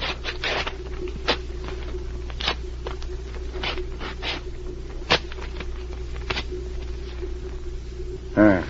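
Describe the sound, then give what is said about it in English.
Papers are torn into small pieces at a table, a series of short, sharp rasping rips spaced irregularly over a steady low hum. “Now, let's go over to this table, watch the papers as I tear them. We don't want to lose any of the pieces.”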